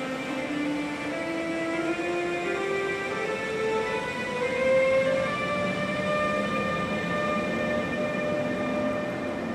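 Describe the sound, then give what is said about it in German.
Nightjet night train departing for Rome, its drive giving a steady rumble overlaid by several tonal whines that climb gradually in pitch like a musical scale, continuous and fairly loud throughout. “Es ist jetzt 19.25 Uhr, Abfahrt des Nightjets nach Rom.”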